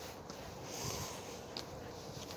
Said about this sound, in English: Breathe in.